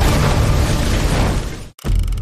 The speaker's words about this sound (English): But as it rolls off the stone bridge onto the causeway, an explosion goes off.